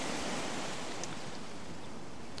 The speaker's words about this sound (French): La plage, des vacances. Ah, alors. C'est Zelda Breath of the Wild.